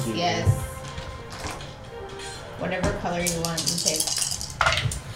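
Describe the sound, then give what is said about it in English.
Dice rolled during a tabletop fantasy role-playing game make light clattering clicks. They are mostly bunched in the latter part and partly masked by people talking over them. “Double the dice. Uh-huh. 48. Roll me 48.”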